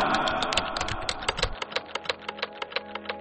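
Fingers type on a keyboard while writing a text, making many quick, crisp clicks in an uneven rhythm that turns sparser and more distinct toward the end.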